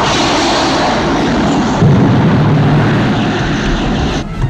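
Viper starfighters launching in Battlestar Galactica, a dense, roaring whoosh of thrust that holds steady throughout, swells slightly midway and dips briefly near the end.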